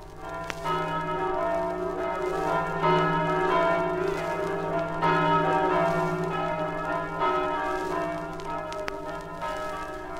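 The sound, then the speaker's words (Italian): Church bells ring as a fishermen's procession returns to port in a Marano fishing town in 1955. Dense, sustained ringing tones overlap steadily and loudly throughout, with no clear gaps. “Mistico suggello, le campane che da tempo immemorabile accolgono la processione che rientra nel porto.”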